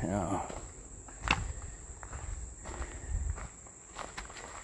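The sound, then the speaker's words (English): Footsteps on the way down to a river, a few soft, uneven steps heard faintly over a constant high chirping of insects. “Now I'm walking down to the river.”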